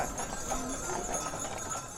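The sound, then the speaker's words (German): Hooves of a six-horse team of heavy draught horses clatter through a festival street at Oktoberfest, a dense, steady clip-clop blended into constant crowd noise. “Wundern muss man sich ja auch, wie diese Sechserzüge mit diesen gewaltigen Rössern sich vorsichtig und sicher ihren Weg durch die Wirtsstraße, durch die Leid hindurch bahnen.”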